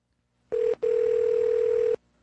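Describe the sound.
An electronic telephone ring for an incoming call: a steady mid-pitched tone sounding once briefly, then again as a longer sustained burst, loud and alone.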